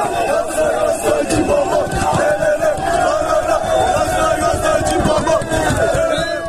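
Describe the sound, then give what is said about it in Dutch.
Galatasaray supporters welcome footballer Dries Mertens on his arrival in Turkey with a loud, continuous crowd roar of chanting and cheering, many voices overlapping throughout. “Hij zou bij Galatasaray tekenen voor één seizoen met optie op nog een jaar. Hij kreeg alvast een heel warm welkom van de fans.”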